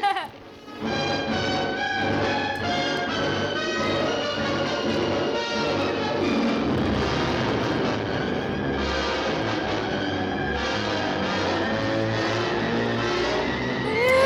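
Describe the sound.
Trailer audio for the 1954 giant ant film Them! plays as a dense, loud, unbroken wall of sound, with layered sustained tones over a heavy engine-like roar throughout.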